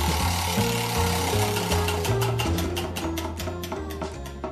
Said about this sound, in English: let's give the wheel a spin and see what it lands on.